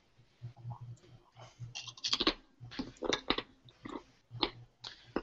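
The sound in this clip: Someone crunches chips while eating during a tabletop role-playing game session: faint, irregular bursts of crisp crunching and chewing, with many small cracks clustered together.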